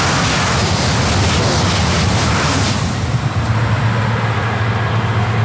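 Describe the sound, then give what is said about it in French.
Broad, roaring rush of a high-speed TGV on the Paris–Bordeaux line passing near Charente farmland, loud and steady throughout with a low underlying hum and no voices. “une quinzaine de familles ont porté plainte contre les nuisances sonores du TGV Paris-Bordeaux.”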